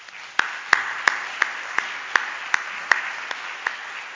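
A church audience applauds to welcome its new organist at a traditional worship service: a steady wash of clapping with sharper claps standing out at even, regular intervals throughout.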